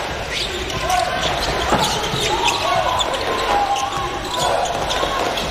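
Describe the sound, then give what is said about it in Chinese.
Basketball dribbling during a game against Australia's team, heard as faint repeated bounces buried in steady crowd noise, with a commentator talking over it. “利用掩护，这球运得有点多，再出来。”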